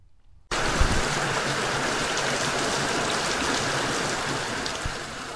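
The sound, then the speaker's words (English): Heavy rain falling in Kenya during the El Niño rainy season. After a brief near-silent start, a loud, dense, continuous hiss of downpour sets in abruptly and holds steady to the end. “That is the sound of rain.”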